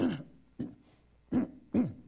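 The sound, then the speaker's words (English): Throat clearing by a person with a broken rib who is avoiding coughing: four short, guttural, rasping bursts separated by pauses, with no talking. “I broke a rib 3 weeks ago and I haven't coughed in 3 weeks. So I have to try to clear it like this.”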